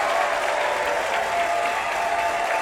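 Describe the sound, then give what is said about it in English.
Crowd ovation for wrestler Thunder Rosa at a wrestling event, a loud, dense, sustained roar of clapping and crowd noise that stays steady from start to finish. “Now that's an ovation. Crowd definitely behind Thunder Rosa in this one.”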